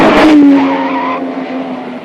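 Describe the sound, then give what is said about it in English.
A small pink convertible speeds down a street and skids, giving a loud tire squeal that slides slightly lower in pitch, then fades into engine noise. “The man solemnly continues walking when a small pink convertible with another gorilla behind the wheel charges in his direction from another street.”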